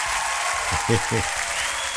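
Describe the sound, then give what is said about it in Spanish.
Steady, dense applause fills the whole stretch, with a brief low voice rising over the clapping near the middle. “Oye, por acá nos llegó un aplauso del Tatita. Aplauso para el Tatita, oiga, que llegó por ahí”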